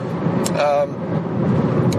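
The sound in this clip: Car driving, captured inside a voicemail recording: a loud, steady muffled road and engine rumble runs throughout, with a brief whistling tone partway through.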